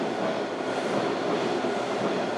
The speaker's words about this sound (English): That's the train.